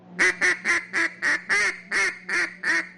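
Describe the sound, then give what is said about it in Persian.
An old-style duck call gives nine sharp, nasal quacks in a steady rhythm. Each quack is short and clipped, and they are evenly spaced with brief gaps between them. The calls sound clearly and alone, without talk. “اغلب مردم نمیدونن که صدای تیپچه اردک‌های قدیمی با مال امروز تفاوت داره، یعنی صداش”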